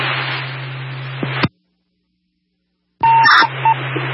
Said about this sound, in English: To give him a call, it goes to voicemail.